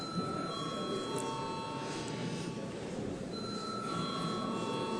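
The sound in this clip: An electric bell rings continuously in a parliament chamber to call members to register their attendance. The steady ringing tone holds for the whole clip.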